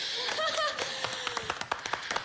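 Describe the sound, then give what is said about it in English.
Studio audience clapping for a singer's American Idol audition, starting as dense applause with a voice briefly over it, then thinning into scattered single claps toward the end. “Now, they give her a pretty good clap, more than most.”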